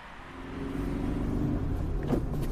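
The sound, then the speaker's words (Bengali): A station wagon drives along a highway: a steady, low engine and road rumble holds throughout, with a brief louder bump near the end. “Highway ধরে ছুটলো station wagon”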